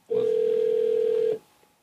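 A telephone call being dialed produces a single steady, mid-pitched tone that holds unbroken for just over a second and then cuts off abruptly.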